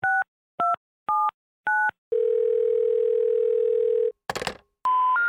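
Telephone tones while placing a call: four short dual-tone keypad beeps in a row, then a long steady dial tone, a brief crackling burst, and finally a higher tone that steps up in pitch.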